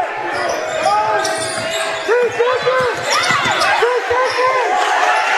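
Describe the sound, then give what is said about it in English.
A basketball is bounced and dribbled on a court in a game, with a steady series of firm, loud thumps and voices in the background. “And that ball is going to be bounced. Dribbled out of bounds by Lincoln.”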